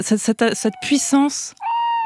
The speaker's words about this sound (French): cette puissance de la chouette ulotte qui chante la nuit, c'est quelque chose d'extraordinaire